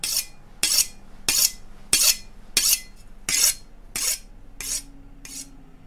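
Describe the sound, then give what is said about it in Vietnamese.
A pig-sticking knife is sharpened with a steady series of evenly spaced rasping strokes, each a bright, harsh scrape. The strokes come roughly every two-thirds of a second with quiet gaps between them. “Tiếng mài dao vẫn loẹt qua loẹt quẹt, kèm theo tiếng phập vang lên dữ dội lắm.”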